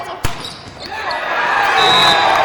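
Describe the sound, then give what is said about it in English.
A hard volleyball spike lands as one sharp slap near the start, in a Bingham vs Olympus boys varsity region game, the ball deflecting off a player out of bounds. Gym noise and voices swell steadily afterward. “Hard spike from Olympus and deflects off Bingham out of bounds.”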